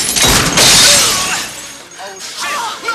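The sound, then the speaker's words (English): Glass shattering as a taxi's windshield is blown out by gunfire from a heavy shotgun-sized cannon: a loud, harsh crash and spray of breaking glass that fades into a lingering, noisy tail. “He blows out Benny's lights and taxi sign, then his windshield.”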